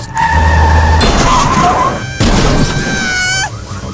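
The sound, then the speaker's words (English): In an animated video-game car chase, tyres screech and a car smashes into something. Loud, harsh bursts of skidding and impact are followed by ringing, rising high tones. “Ah, you, stop breaking through the window, Kenny. Oh, I'm gonna crash,”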